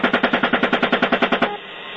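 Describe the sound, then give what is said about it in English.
Machine gun fire aimed at an ambulance and recorded on video: a rapid, evenly spaced burst of many loud shots lasting about a second and a half, then cutting off abruptly to a faint hiss. “you can hear the guys laughing about it as they shoot up the ambulance from a distance and record it on video”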